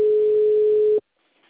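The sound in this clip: Ringback tone of an outgoing phone call: a single steady low tone lasting about a second stops abruptly, then near silence follows.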